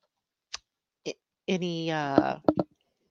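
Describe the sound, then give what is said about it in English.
Two light, isolated clicks of an earring tapping against an object, followed by a short voiced sound and a few more quick ticks. “Oh, it's my earring that's hitting. It's my earring hitting this. That's what I'm hearing tapping. Let me move my earring out.”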